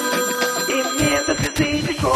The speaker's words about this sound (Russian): Телефонный звонок.